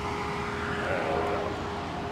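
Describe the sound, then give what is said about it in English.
Waymo self-driving car pulling up, heard as a steady, even whirring hum with a faint constant tone running through it and no talk. “So there's our Waymo. It should be pulling up right next to us.”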